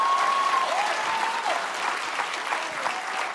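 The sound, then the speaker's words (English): A church audience applauds with dense, steady clapping that holds at an even loudness throughout. “Come on, if you love Jesus, put your hands together and give him some praise in the building.”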